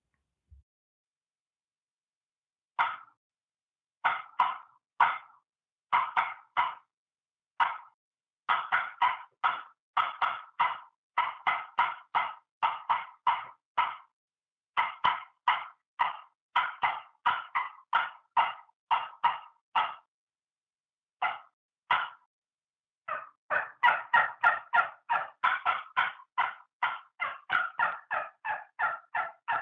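Hand-worked turkey call giving sharp cutting notes and aggressive yelping: loud rapid bursts of clucks and yelps in uneven runs separated by short pauses, densest near the end, with no voices.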